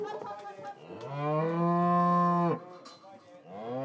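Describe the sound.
A cow moos for its calf during a cattle drive, giving one long, loud, low and steady call that breaks off abruptly, followed by the start of another moo at the end.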